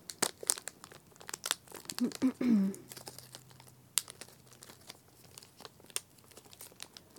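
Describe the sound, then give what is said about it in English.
Crinkling and tearing of a wrapper as a peppermint Ritter Sport chocolate bar is unwrapped. Many sharp crackles are scattered throughout, with a louder tearing stretch near the middle and no talk. “This is pfefferminz. Peppermint. I wonder if it's got goo on the inside. Peppermint goo, or if it's just like a... Let's see.”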